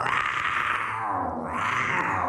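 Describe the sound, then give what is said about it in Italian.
A lion roaring: a single loud, rough, sustained roar that fills the whole stretch without a break. “È il leone, il leone.”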